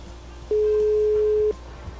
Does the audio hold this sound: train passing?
no